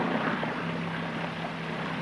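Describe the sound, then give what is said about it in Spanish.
A boat's motor drones steadily, a loud, even engine hum with a constant low tone and no break or change throughout. “Sube a bordo. Se acerca al motor y arranca.”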